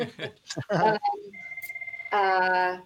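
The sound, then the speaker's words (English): A mobile phone rings after a voice talks: a fast, evenly pulsing electronic tone gives way to a louder, sustained, harmonically rich ring that runs to the end. “sorry, that's my phone going.”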